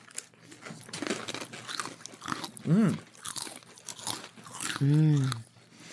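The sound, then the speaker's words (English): Pita chips dipped in hummus crunch under people talking, a few crisp, brittle bites and chewing sounds mixed in with conversational voices. “So got a little plate of chips and hummus. Yeah. 1, 2, 3, go.”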